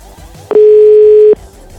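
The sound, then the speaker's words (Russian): A single steady telephone tone sounds while a number is dialed. It is a loud, level, mid-pitched beep lasting under a second over faint background sound. “Слушайте, я хочу все-таки этому товарищу Юрию позвонить. У меня к нему вопросов накопилось. Четыре, семь,”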